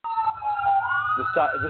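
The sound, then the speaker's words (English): An emergency siren wails loudly on a main road, its sustained tone sweeping down and then back up, with a voice speaking over the end. “the sirens. Yep, I live right on that main road”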